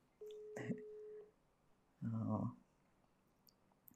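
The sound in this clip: A faint telephone busy signal during a call: a steady low tone lasting about a second, then a shorter, buzzier second burst, with quiet gaps around them.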